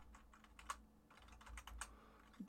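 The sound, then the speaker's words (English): Soft, faint clicking of fingers on a computer keyboard, a quick irregular patter of keystrokes with a few slightly sharper taps standing out. “if you would open a browser and just type in torus report, all as one word,”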